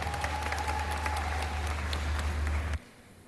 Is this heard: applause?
yes